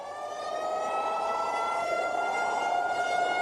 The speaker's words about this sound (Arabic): وانطلقت صفارات الانذار من المستعمرة وكمان عند الافيال